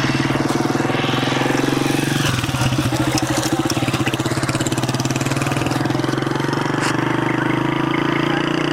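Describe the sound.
An ordinary light car's engine drones steadily as it drives along a side road from Chanjir to Babaji, a loud continuous rumble with a pulsing low hum throughout.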